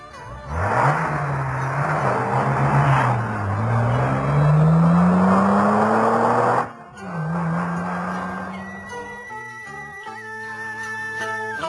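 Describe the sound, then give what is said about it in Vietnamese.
A car engine revving as the car drives off: a low droning engine climbs steadily in pitch, dips sharply at a gear change, then builds again before fading under other sounds. “rồi xách vali đi ra xe. Ông kêu thằng shopper dậy, rồi chở ông trở lại đường Mayer, nhà của cô Thanh Thủy”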